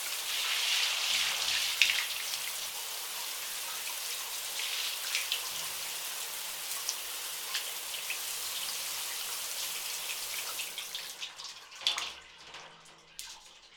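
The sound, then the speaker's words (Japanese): Hot bathwater pours and splashes over a body, a steady bright rush with irregular splashes that thins near the end into a few scattered drips. “お湯は熱くないかい？体の汚れと一緒に全身に溜まった汚れもきれいさっぱり流れ落ちていくだろ”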